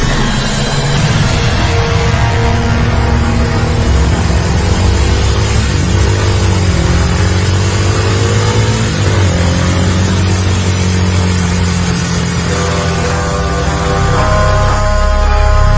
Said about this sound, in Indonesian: kami pun dengan segera langsung tancap gas kencang-kencangnya.